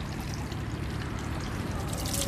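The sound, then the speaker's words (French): Water poured from a small wooden ladle over the left hand during hand washing, a steady, continuous splashing trickle that holds at an even level for the whole stretch, with no voices. “On verse une fois comme ça sur la main gauche.”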